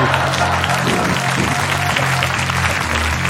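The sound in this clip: An audience breaks into applause, a dense, steady wash of clapping that stays loud throughout.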